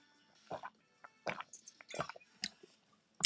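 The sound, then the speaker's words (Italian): Someone takes a quiet sip of a drink: a few soft, wet mouth clicks and gulping swallows, faint and separated by short pauses, with no talking. “Bevo perché mi si secca la gola.”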